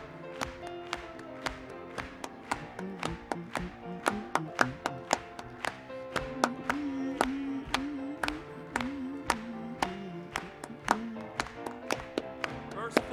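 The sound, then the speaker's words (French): Many sharp hand claps from people in a church ring out in a steady, even rhythm across the whole stretch, with voices running beneath them. “Continuons à frapper les mains pour lui.”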